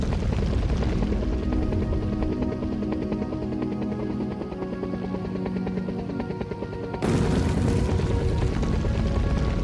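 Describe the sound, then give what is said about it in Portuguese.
A helicopter departs at a video game ending, its rotor a loud, steady, continuous chopping roar that briefly shifts character near the end before carrying on. “você dá um tirambaço no Tyrant, pega o helicóptero, vai embora e tem aquele finalzinho feliz ali”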